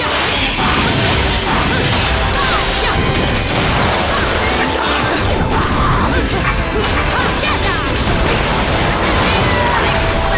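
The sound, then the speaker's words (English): Guillotine torture attack in a video game: a dense, loud, unbroken barrage of crashing and smashing impacts with thuds and clanking mechanical noise. “Torture attack. This one involves a nasty guillotine.”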